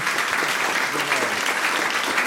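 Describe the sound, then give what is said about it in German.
Audience applause, thick and even, holding steady throughout with a voice briefly heard over the clapping. “Danke vielmals für dein Gastrecht da und einen Applaus bitte sehr.”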